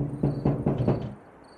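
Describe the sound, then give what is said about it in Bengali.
Four soft knocks on a closed door, muffled and evenly spaced, followed by quiet. “4 নম্বর ঘরের সামনে দাঁড়ালো অর্জুন, দরজা বন্ধ। সে মৃদু টোকা দিল।”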